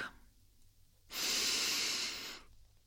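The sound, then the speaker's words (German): A deep, slow breath taken during a new-moon yoga practice: one long, airy rush of air, more than a second long, rising clearly out of a quiet, hushed background. “Und dann nimm einen tiefen Atemzug.”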